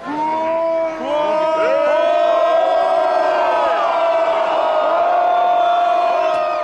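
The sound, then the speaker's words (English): A protest crowd in Moscow roars as Russian riot police make arrests, loud, sustained massed shouting and chanting with rising whoops and yells layered over a constant wall of voices. “Here's the sound of the crowd as Russian riot police began making arrests.”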